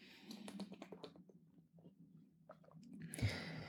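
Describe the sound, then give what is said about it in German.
A quick sip of a drink: faint, wet mouth clicks and small gulping sounds, ending in a brief burst of breathy noise. “Kurz einen Schluck trinken hier.”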